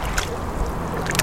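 Water sloshing and gurgling around a small rubber boat on the Oslofjord, with a steady low rumble and a few brief splashy bursts.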